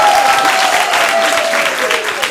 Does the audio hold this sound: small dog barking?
no